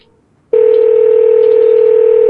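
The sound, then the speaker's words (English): A social media video call rings with an electronic call tone. After a brief near-silence it starts abruptly and holds one steady, loud, unbroken pitch on its own. “I didn't hear you over the Facebook ring.”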